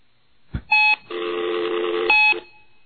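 Telephone call connecting tones: a click, a short electronic tone, then a longer, steady buzzing ring tone, followed by another brief tone before the line goes quiet.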